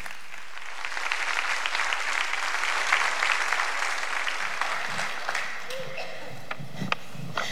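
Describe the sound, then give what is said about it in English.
Audience applause welcomes a woman speaker to the stage. The clapping is dense and sustained, then thins out and softens toward the end. “Give her a warm welcome right now.”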